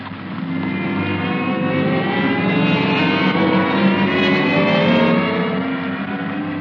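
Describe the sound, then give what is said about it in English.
A department store escalator ride plays as a radio drama sound effect. It is a loud, constant mechanical whir with a low humming drone, unchanging from start to finish. “Well, these escalators are all right. Nice, comfortable ride.”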